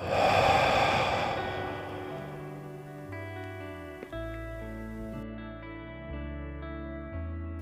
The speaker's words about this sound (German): Und lass die Luft aus deinem Mund herausfallen.